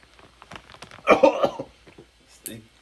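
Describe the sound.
Gagging, sputtering coughs from someone who has inhaled hot Cheeto dust, with a harsh cluster in the middle and a short burst near the end, mixed in with voices talking.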